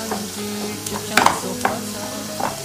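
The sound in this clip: Chips frying and sizzling in a pan: a steady crackling hiss with a few louder spatters and soft stirring scrapes, no voices.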